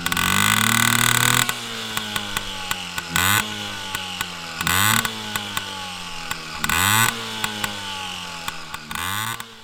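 A PW50 two-stroke minibike engine revs on premix with its rear wheel lifted off the ground. A held high-pitched rev drops to a buzzing idle, then four short, sharp throttle blips rise and fall in pitch.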